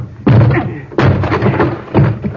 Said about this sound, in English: I'll have to break this door down